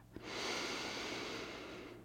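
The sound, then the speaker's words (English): A big breath taken together, heard as a long, airy rush of air that starts with a soft catch, holds for about two seconds and fades slightly toward the end. “And I'd like us all to take a big breath together”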